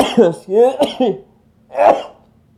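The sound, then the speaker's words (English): A sneeze bursts out near the end from someone who sneezes repeatedly. It follows a few short, strained voiced sounds and stands loud and alone against quiet. “I'm multi-sneezer, excuse me. I didn't want to edit that out.”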